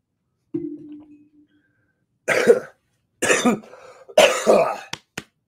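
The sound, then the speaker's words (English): Harsh coughing from someone whose coffee went down the wrong way and who has chest issues: a few loud, rough bursts that follow a faint low hum and end in a couple of short, sharp catches. “Excuse me, drinking coffee and that went down the wrong way.”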